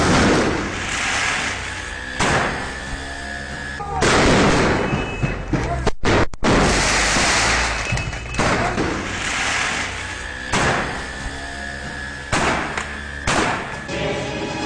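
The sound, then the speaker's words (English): Molotov cocktails thrown by a crowd at the AK Party district building in Bağlar, Diyarbakır: repeated heavy thuds and loud crackling bursts, some long and roaring, over a constant rumble of crowd noise. “Kalabalık bir grup hızla yaklaşıyor ve bir anda Adalet ve Kalkınma Partisi'nin ilçe binası molotof yağmuruna tutuluyor.”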